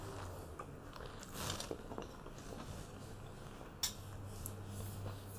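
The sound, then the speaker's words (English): Eating watermelon: faint, moist bites and chewing over a low hum, with one sharper click near the end. “What else was good? A watermelon. Amazing seasonal watermelon. This is so good.”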